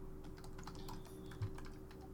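Rapid, steady clicking of fingers typing on a computer keyboard while working in a spreadsheet, quiet and continuous with no talk.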